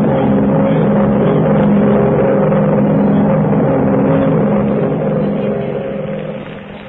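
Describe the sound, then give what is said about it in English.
A twin-engine high-wing plane drones in flight over the Gulf of Mexico: a loud, continuous engine hum with steady tonal throbbing that eases slightly quieter near the end. “Are you sure it's Mandrake's plane? It's Mandrake's ship, all right.”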